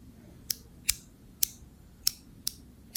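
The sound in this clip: A gas lighter that is out of gas is clicked repeatedly and fails to light, giving six sharp, bright clicks at an uneven pace over faint low background noise.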